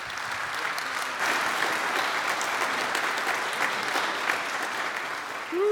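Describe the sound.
Congregation applause at a church worship service in Georgetown, Kentucky, welcoming guest speakers: dense, steady clapping that holds at an even loudness throughout.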